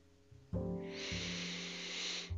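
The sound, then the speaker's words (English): Slow, deep breathing during a guided relaxation exercise: a long, soft, airy breath that swells and holds over steady low sustained tones, quiet throughout. “Let's take a few breaths to center ourselves and unfreeze our minds in order to accept change.”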